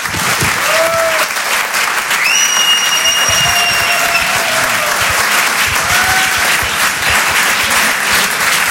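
Loud audience applause welcomes a comedian onto the stage at a comedy show. A dense, continuous clatter of many hands holds steady from start to finish.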